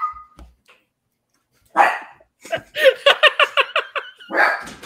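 A dog barks in a quick run of sharp, high yaps, loud and clear with no talk over it, after a brief louder opening bark.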